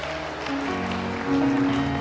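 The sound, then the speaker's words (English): Congregation applause, a hand clap of praise in a church service: grainy, moderate clapping from many hands that rises in level toward the end, with sustained musical tones ringing underneath. “Let's give the Lord the great hand clap of praise that He deserves.”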